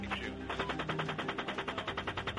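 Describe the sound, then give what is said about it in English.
Rapid automatic gunfire from a U.S. attack helicopter firing on civilians in Baghdad, in 2010 footage: many sharp bursts repeat in a steady, fast rhythm, fairly loud and continuous. “It's this 2010 footage of a U.S. attack helicopter opening fire on civilians in Baghdad, including two Reuters news staff”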